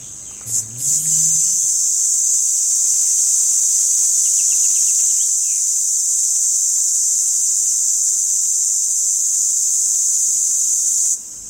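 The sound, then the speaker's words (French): A male Tibicina haematodes cicada calls with an intense, high, continuous buzz that holds steady for about eleven seconds, starting after a few faint low sounds and ending abruptly. “de son petit nom latin Tibicina hematodes. Alors c'est pas la cigale la plus commune, la plus facile à trouver, elle est plutôt dans les arbustes, dans les arbres, mais elle fait un son assez intense.”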